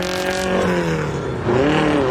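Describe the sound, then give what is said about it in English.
Engine of a small car driving through nighttime traffic, a loud, steady drone that sags slightly and then climbs in pitch as it revs up again. “The small car weaves through nighttime traffic.”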